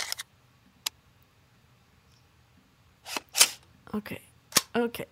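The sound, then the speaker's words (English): A gun reloading sound effect made of sharp mechanical clicks. A couple of isolated clicks come first, then after a pause a denser run of snappy clacks and rattles. “Is this a gun reloading?”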